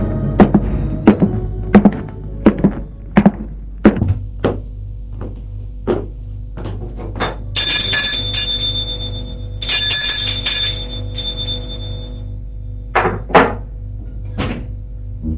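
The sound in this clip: A doorbell rung at someone's home: two sustained buzzing rings after a run of dull thumps, with a few more thumps following.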